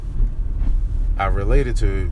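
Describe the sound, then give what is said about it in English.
A car is being driven, heard from inside as a steady low engine and road rumble. A voice talks briefly over the drone in the second half. “Like right now I'm driving”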